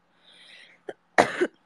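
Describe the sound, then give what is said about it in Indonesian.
A person coughs: a soft, breathy intake, then a short sharp cough and a stronger, raspier cough, all fairly faint. “Batuk-batuk jadinya.”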